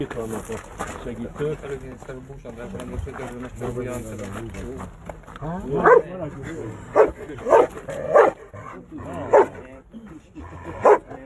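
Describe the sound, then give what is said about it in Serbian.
A drug-sniffing dog barks several times in short, sharp bursts in the second half, heard under ongoing talk. “svaki pas uh, najavu pronalaska opojnih droga radi tako što će grebati, lajati.”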